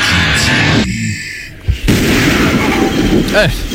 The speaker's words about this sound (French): maudit, ça explose à la fin.